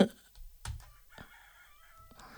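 A rooster crows faintly in a garden full of hens. The crow is a thin, steady-pitched call that follows a couple of soft knocks.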